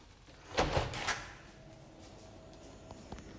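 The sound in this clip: Windows being opened: a short cluster of clunks and rattles from the frame and latch, followed by quiet background with a couple of faint ticks.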